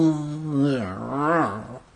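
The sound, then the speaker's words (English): A human voice imitates the growl of a giant angry hamster, a drawn-out, low, rough vocal growl whose pitch wavers up and down for about two seconds. “He let out a growl that made the light fixture shake. Growl.”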